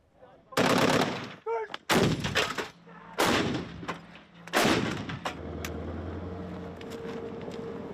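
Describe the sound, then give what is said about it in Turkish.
Gunfire and artillery blasts from a live-fire military exercise at a barracks in Polatlı, Ankara, with many weapons and munitions: several loud, sharp reports in quick succession, then a steady low rumble. “Ankara'nın Polatlı ilçesindeki Sakarya Kışlası'na yapılan tatbikatta pek çok silah ve mühimmatla çeşitli senaryolar üzerinden atış yapılıyor.”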